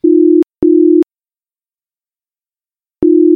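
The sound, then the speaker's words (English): Phone line tones after dialing a contact: steady, low electronic beeps, two close together, then a long silence before a third begins. “He pulled up the contact and hit dial.”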